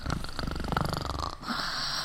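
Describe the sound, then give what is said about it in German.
A person snoring: a rattling, buzzing wheeze with rapid, regular pulsing for over a second, then a brief break and a smoother, breathier exhale. “du schnarchst.”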